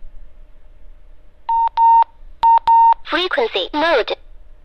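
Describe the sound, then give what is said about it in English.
An amateur radio transceiver powers on in VFO mode with four short electronic beep tones in two pairs, then a brief spoken voice announcement. “I have put it into VFO mode because this is how your radio will sound when you first turn yours on.”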